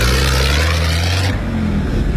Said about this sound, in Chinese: 后面的车来了，看看。